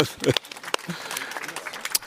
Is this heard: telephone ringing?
no